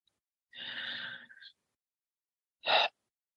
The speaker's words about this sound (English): Let's start by taking 3 deep breaths in and out.